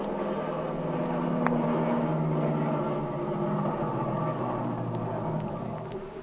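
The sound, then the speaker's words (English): An airplane engine turns over and keeps running as a steady, droning hum over a low rumble, even in loudness throughout. “That engine's turning over.”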